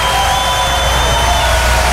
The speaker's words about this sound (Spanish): En Génova, Italia, otro aplauso, por favor, Pepe Lucho.